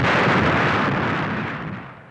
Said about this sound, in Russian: Что случилось? Взрыв на Амур-43.